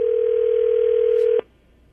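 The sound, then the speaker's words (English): A telephone dial tone sounds while a call is placed. It is one loud, steady, unbroken pitch lasting about a second and a half, then it cuts off abruptly, leaving faint hiss. “Okay, so let's give him a call.”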